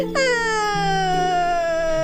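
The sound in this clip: Sustained crying from one person: a long, loud, drawn-out wail whose pitch sinks slowly over about two seconds, with no other sound around it.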